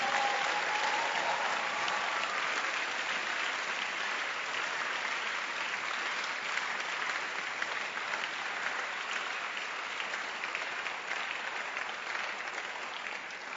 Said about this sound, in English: keep clapping your hands for them.